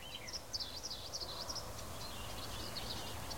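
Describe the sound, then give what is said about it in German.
Birds singing outdoors on a windy day: faint high chirps repeat in short bursts over a steady, rumbling wind noise. “Also es ist ein bisschen windig, aber ich hoffe, man kann trotzdem den Vogelgeräuschen lauschen.”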